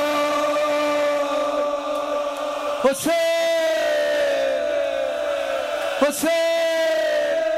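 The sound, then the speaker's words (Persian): A crowd of mourners cries out on the night of Ashura, voices joined in long, sustained, wailing calls that hold steady, broken twice by brief pauses before the loud cry swells up again. “این صدای فریاد شب عاشورا و”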